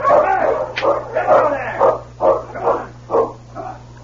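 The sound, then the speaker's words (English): Malamute sled dogs barking on a snowy trail: a run of many sharp, loud barks in an uneven rhythm, each burst short and punchy over a steady low hum. “I'll handle the dogs for a couple of miles. Come on, you Malamute!”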